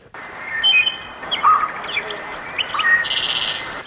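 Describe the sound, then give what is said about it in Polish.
Birds sing at dawn, with bright chirps, tweets and an occasional squawk rising and falling over a faint hiss, the calls overlapping throughout. “A może by tak iść na koncert wraz z budzącymi się ptakami?”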